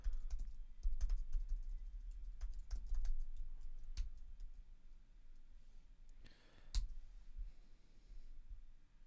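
Typing on a computer keyboard: many quick, fairly faint key clicks in an uneven rhythm, with a few louder taps and a brief soft burst near the end, no voices.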